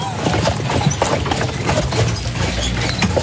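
Two horses start walking, their hooves clip-clopping as they pull a horse-drawn carriage, with many uneven, clattering hoof beats over a busy rattling background.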